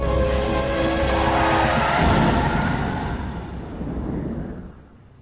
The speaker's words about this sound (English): looks horrified as the car goes into a skid